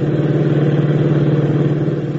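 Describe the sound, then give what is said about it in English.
A sedan's engine roars as the car speeds down an empty desert road with the accelerator floored, giving a loud, steady, rumbling drone that holds at an even level throughout, with no voices. “Joe forces the accelerator down to the floorboards and the sedan roars down the empty desert road.”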